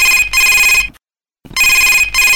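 An incoming call to a radio phone-in sets a telephone ringing. Two loud, bright electronic double-ring bursts are separated by a short silence.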